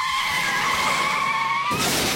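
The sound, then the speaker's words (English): Car tyres skidding while braking on a wet road: a loud, sustained squeal holding a fairly steady pitch, then giving way to a broad rushing noise near the end. “But when it takes twice as long to stop your car on a wet road,”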